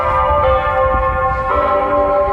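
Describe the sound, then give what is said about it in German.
Bells ring from the customs house in Wuhan at ten on a January morning. A loud, sustained ringing hum carries throughout, with a few fresh strikes layering new tones over the lingering resonance. “Das Glockengeläut des Zollhauses in Wuhan signalisiert, dass die Stadt abgesperrt wird.”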